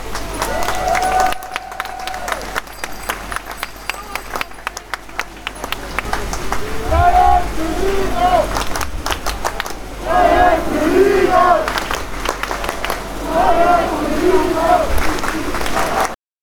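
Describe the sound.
A crowd of demonstrators at an antifascist rally shouts and chants loudly and without a break. Voices rise and fall together in repeated calls over a constant roar of crowd noise.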